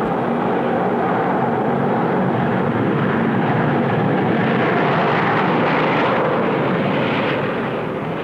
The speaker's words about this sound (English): Boy, how'd you like to be driving that baby? Some thrill. But you know, before that pilot could fly from coast to coast in 3 hours plus